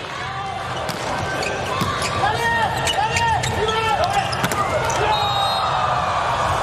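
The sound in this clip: Volleyball bounced repeatedly on the floor before a serve during a match against the Slovenian team: several sharp, evenly spaced thuds beneath continuous talking.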